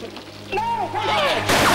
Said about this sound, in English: He shoots some rock.